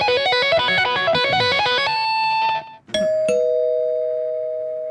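A doorbell chime that sounds like a guitar plays a bright run of plucked, guitar-like notes. After a brief drop, one sustained ringing tone is struck and slowly fades out.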